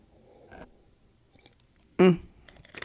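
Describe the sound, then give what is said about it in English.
A single quick sip of Bling's Boozy drink: one short, loud slurping gulp stands out against near silence, with a few faint soft clicks before and after. “had to take a little sip of my Bling's Boozy”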